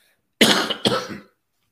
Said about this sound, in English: still trying to get over a cough